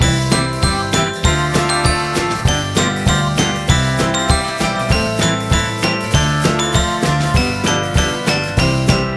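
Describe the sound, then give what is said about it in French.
Three small bells tinkle in a quick, steady rhythm. The bright, loud strikes repeat evenly throughout with no voices. “Trois jolies petites clochettes qu'il a bien voulu me prêter, et on les entend tinter.”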